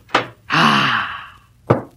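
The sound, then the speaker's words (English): A door is shut with two dull, short thunks, one at the start and one near the end, and a breathy, sigh-like vocal sound fills the gap between them. “I hurried into my room and shut the door. And locked it. And chained it. And bolted it.”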